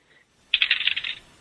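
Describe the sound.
Dice roll during a tabletop role-playing game, making a quick burst of rapid clattering clicks that lasts under a second and then stops.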